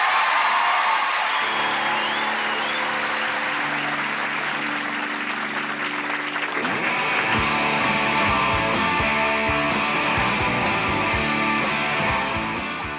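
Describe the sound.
Audience cheering and whooping to welcome the band Gigolo Ants onto the stage, a loud sustained crowd roar with whoops and shouts running the whole way through.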